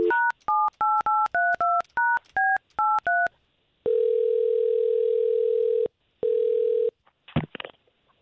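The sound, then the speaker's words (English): A telephone number is dialled as a quick run of about a dozen touch-tone beeps at varying pitches. Two long, steady ringing tones follow, then a brief rattle at the end. “we're going to take Amanda's number that you just gave us, and we'll try to contact her”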